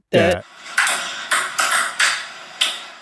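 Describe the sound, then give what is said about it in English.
A ping pong ball bounces in a tapped-out rhythm that mimics a well-known video game tune, giving five bright, hollow pings at uneven spacing after a short opening burst. “guys being dudes who are probably a little stoned and playing ping pong”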